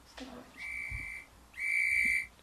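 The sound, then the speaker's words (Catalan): Referee's whistle ending the first half of a match: two sustained shrill blasts at a steady high pitch, separated by a short pause, the second slightly louder and longer. “I aquest xiulet, què vol dir, Júlia? Que s'acaba la primera part del partit.”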